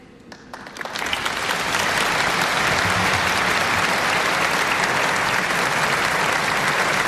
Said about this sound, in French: On entend Monseigneur Ballot, archevêque, évêque de Metz, qui maintenant va donner l'accolade au pape Léon XIV sous les applaudissements.